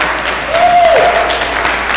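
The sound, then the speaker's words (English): Audience applause for a newly powerful city councilman: loud, dense, continuous clapping from many hands, with a brief high whistle cutting through it near the start. “So let's give him a round of applause”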